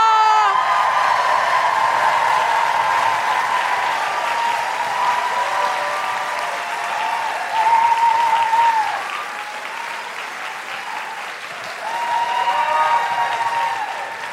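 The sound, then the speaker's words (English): A live audience at a comedy show claps loudly and whoops to welcome a guest, a sustained roar of hands with cheers on top that eases off partway through before swelling again near the end. “put your hands together and make incredible woo-hooing noises. Break laws if necessary to welcome the wonderful Susan Wokoma!”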